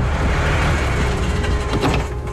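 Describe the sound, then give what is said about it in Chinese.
A truck slowly pulls up and comes to a stop at the entrance of a quiet alley. Its loud, steady engine rumble holds, then eases off near the end. “在室内的一条僻静的胡同口，一辆卡车缓缓地停了下来”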